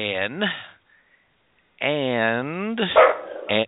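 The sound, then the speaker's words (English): Dogs bark and yip at home during a phone interview, heard over a narrow, tinny line as a couple of bursts of barking separated by a brief silence. “we have a little bit of background noise here, and my apologies for that. I thought the dogs were going to be very, very”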